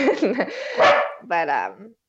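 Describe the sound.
A dog barks in short, loud bursts that overlap with a person talking, the yaps rising and falling in pitch.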